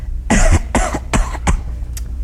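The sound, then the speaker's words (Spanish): A person coughs hard, forcing harsh, chesty coughs to sound like bronchitis: four loud bursts in quick rhythm, then a fainter fifth. “Tengo que toser más duro.”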